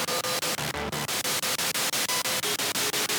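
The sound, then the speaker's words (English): Harsh static from a spirit box radio: dense, loud hiss chopped into many rapid, evenly spaced pulses as the receiver sweeps, steady throughout and with no voices. “That distortion, though, that distortion is weird.”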